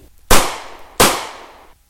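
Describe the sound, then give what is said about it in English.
Two loud gunshots fired from a gun in a dramatized scene: each sharp bang is followed by a long, fading tail, the second coming about 0.7 seconds after the first, with no voices. “She dashed out just as his finger pulled the trigger. No, Mark! she cried, and two shots ripped into her body.”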